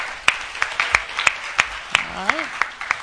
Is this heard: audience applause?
yes